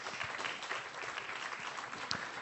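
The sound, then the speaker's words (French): Applause follows a song, a dense, steady patter of many clapping hands that stays fairly faint throughout. “Vous pouvez l'applaudir quand même au passage.”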